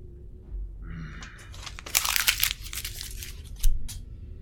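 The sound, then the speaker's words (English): A chair creaks briefly as someone shifts in it at a desk, followed by the crinkling crunch of paper being crumpled in several quick bursts. “you will hear the unmistakable noise of a chair creaking, like someone shifting in it, and then the crumpling of paper.”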